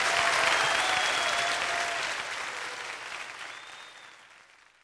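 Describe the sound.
An audience applauds Eric Clapton after his vocal performance, a thick wash of clapping that starts loud and gradually fades away toward the end.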